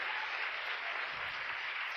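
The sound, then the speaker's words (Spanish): An audience at a church service applauds, a steady, dense hiss of many clapping hands holding an even, fairly soft level throughout. “¿Cuánto aplaudimos de vuelta al Rey?”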